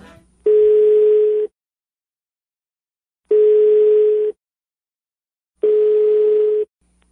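Three steady telephone tones ring out while a call is placed again. Each is a flat, low-pitched beep about a second long, separated by clear silent gaps of nearly two seconds.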